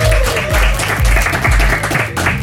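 Studio audience applause in a radio studio, a broad wash of clapping over a steady thumping beat of music that keeps a regular pulse throughout.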